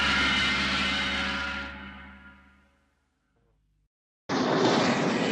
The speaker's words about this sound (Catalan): Una aeronau vola baix sobre la ciutat.